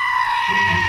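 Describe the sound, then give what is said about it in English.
A goat bleats once, a loud, harsh, wavering cry that holds steady for just under a second, with a rougher, lower buzz joining in its second half. “I do love that goat. And I love knowing the story that Netflix was not going to use that initially.”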